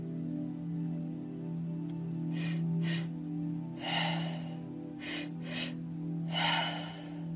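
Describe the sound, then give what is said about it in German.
Mouth breathing in a repeating pattern of two quick inhalations followed by one longer exhalation, performed twice over a low steady hum. “Wir atmen in zwei Wellen ein und in einer Welle aus, beides durch den Mund.”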